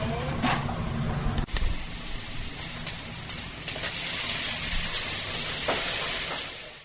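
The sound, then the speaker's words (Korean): Steady sizzling and hissing of food cooking in a Japanese-style ramen restaurant kitchen, with a few sharp knocks and clatters over the frying. “일본식 라면 가게인 이야기를 담은 라멘의 주방에서 능숙한 솜씨로 주문받은 음식을 만들어냈습니다.”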